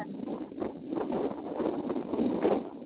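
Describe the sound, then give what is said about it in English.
Wind buffeting the microphone as a broad, rumbling rush that rises and falls in gusts, growing stronger toward the end. “Well, there's a lot of wind.”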